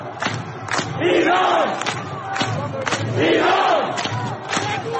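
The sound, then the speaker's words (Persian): A protest crowd in the streets inside Iran chants "Iran" over and over in loud, rhythmic unison. The chant surges and eases in repeated phrases, with sharp percussive hits cutting through the mass of voices. “و گاهی هم مردم داخل ایران با شعارهای محوری ای ایران صدای اعتراضشان را بلند می کردند.”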